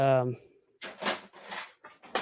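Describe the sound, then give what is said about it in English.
Metal lock dropped into a container: a brief voice, then a few scattered rattling, clattering bursts of irregular length as the lock lands and shifts among other items. “And I'm dropping that lock into the,”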